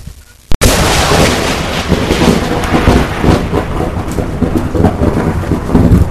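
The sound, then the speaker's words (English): A rocket blasts off after a countdown, with a sudden sharp burst followed by a loud, continuous rumbling roar that stays strong and unbroken to the end. “six, five, four, three, two, one, zero, blast off!”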